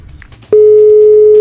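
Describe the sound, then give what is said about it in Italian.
A steady telephone line tone sounds while a call is being placed. It begins abruptly after a brief stretch of faint noise, then holds loud, unbroken and level in pitch to the end. “Chiamiamo Don Luca.”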